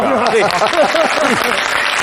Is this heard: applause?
yes